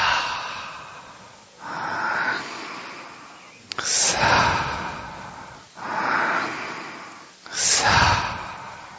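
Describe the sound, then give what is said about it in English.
Slow, deliberate breathing in and out: five long, airy whooshes, each rising and fading, with short pauses between them and no talking. “When I breathe in, the sound is, and when I breathe out,”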